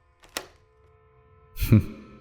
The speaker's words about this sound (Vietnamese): kèm theo đó là một tiếng khóa cửa, cạch một cái.